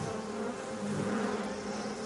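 A honeybee swarm buzzes as it leaves the original hive with the old queen at its centre, making a dense, continuous, low-pitched droning hum that stays loud and even throughout.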